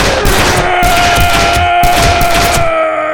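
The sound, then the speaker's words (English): Gunfire from a big man's guns in a close-range doorway shootout, loud repeated shots in rapid bursts over a sustained tone. “Hulon soaked up Jamie's lead. Even with a half dozen bullets in him, the big, black-bearded man lifted his guns and started smoking.”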